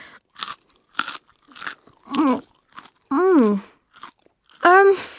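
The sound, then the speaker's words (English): Crisp crunching and chewing while eating a tarantula: short, sharp bites come about every half second, with drawn-out voiced murmurs between them. “And these tarantulas' legs have got hair on them. They're really disgusting. Go on, try one. A lot of people like eating them.”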